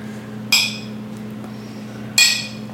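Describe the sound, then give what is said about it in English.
Glasses clink together in a toast, two bright ringing chimes about a second and a half apart over a low steady hum. “I'm going to cheers to you now”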